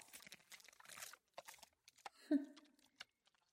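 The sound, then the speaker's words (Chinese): Someone chews food with quiet, irregular crunching bites and soft moist mouth sounds in sporadic bursts, with one louder crunch near the middle. “给我嚼碎，对，嚼”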